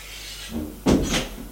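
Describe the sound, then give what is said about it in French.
A door being shut by a doctor entering a sickroom: a single sharp thump, then a softer knock and a low rattle that quickly dies away. “le médecin ferme la porte”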